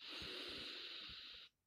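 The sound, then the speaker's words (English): A long, deep breath drawn in through the nose during a guided breathing exercise: one steady, airy inhale of about a second and a half that stops abruptly and leaves near silence. “let us take a long, deep breath, counting three, one from the nose, go”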